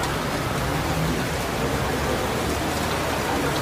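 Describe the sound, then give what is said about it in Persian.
Heavy rain pouring over hospital grounds, a dense, continuous hiss of falling water that stays even and loud throughout, with no breaks or distinct drops standing out. “محوطه بیمارستان. بارون شدید میاد.”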